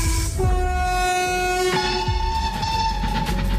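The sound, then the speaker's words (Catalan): A train sounds its horn, a loud sustained multi-tone blast that shifts in pitch partway through, over a low rumbling rail noise. “Això és un tren, claríssimament.”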